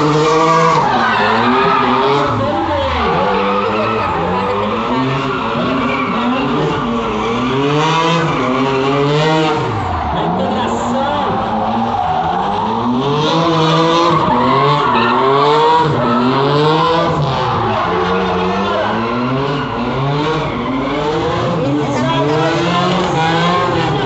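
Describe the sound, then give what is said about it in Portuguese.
Cars drifting at a drift championship, with continuous loud tire squeal and skidding over revving engines whose pitch repeatedly climbs and drops. “Aí a gente aqui também ficou olhando, pô, é muito louco, né? Sem comparação, nunca tinha visto um campeonato de drift.”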